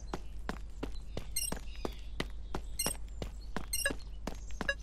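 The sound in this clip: A video game character walks on foot toward a bandit camp: many steady, evenly paced footsteps with crisp crunchy attacks over a constant low hum.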